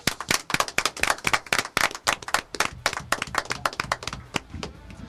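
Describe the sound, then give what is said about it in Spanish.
Applause for a guest: brisk, dense clapping of many sharp claps in quick succession, loud and steady, easing slightly toward the end. “Un aplauso para el compañero Luis.”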